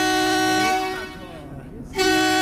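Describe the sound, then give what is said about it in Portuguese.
Truck horns blare in a long sustained honk with a steady, bright harmonic tone. The sound dips and fades midway, then returns loud near the end. “Acorda, motorista. Quem está vendo com o sono já acordou com esse buzinaço aí.”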